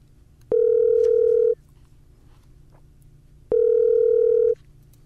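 A telephone line tone sounds while a guest is being called: two loud, steady beeps of about a second each, separated by a gap of roughly two seconds, with no talk.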